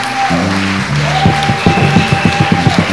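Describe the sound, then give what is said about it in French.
A church audience clapping in rhythm for Jesus during a bilingual worship service, steady claps over sustained instrumental tones, loud and regular. “Acclamons Jésus. Let's clap for Jesus.”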